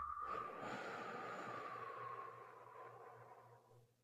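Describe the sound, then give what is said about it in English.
A long, slow exhale after a deep breath, heard as a soft, breathy rush of air that holds steady for a few seconds and then gradually fades. It is quiet, with no talking. “I just want to take a deep breath and then blow out really slow.”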